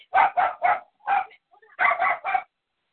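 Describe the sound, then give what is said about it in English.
Dogs barking in quick sharp bursts, a run of about four barks, a short pause, then another tight cluster of three, loud and clear with no voices. “it was tough to do the show with all these barking dogs”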